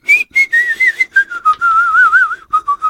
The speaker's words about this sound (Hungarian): Nem zene volt, hanem fütyüléztem.